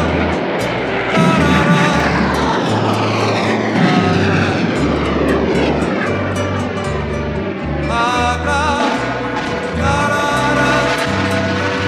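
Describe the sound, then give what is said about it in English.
A helicopter's engine and rotor, a loud, continuous droning roar with low throbbing pulses running underneath for the whole stretch, with no voices. “Do you still hear the helicopter sound?”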